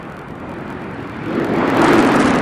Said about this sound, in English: Space Shuttle Discovery now on final approach to the Kennedy Space Center. Just more than 30 seconds to go. Discovery's gear is down and locked.